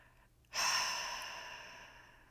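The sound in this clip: A single deep breath starts abruptly and trails off slowly over about two seconds: a soft, breathy hiss with no talk around it.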